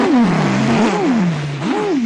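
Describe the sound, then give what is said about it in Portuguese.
Racing cars speed past during a race, their engine whine swooping up and down in pitch several times, loud and continuous throughout. “Ah, mas que corrida, rapaz, que corrida ótima, aqueles carrões passando.”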